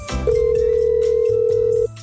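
A telephone ringback tone from an unanswered call: one steady mid-pitched tone holds for about a second and a half, then cuts off, over a low background hum.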